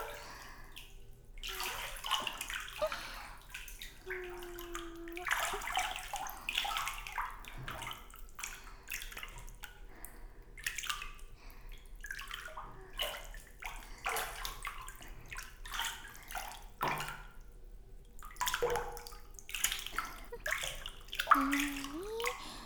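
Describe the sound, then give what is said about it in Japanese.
Hot water runs and splashes as hair is carefully rinsed, a faint steady flow broken by irregular sloshes and drips throughout. “細かいのが残らないように。丹念にお湯で流しますね。”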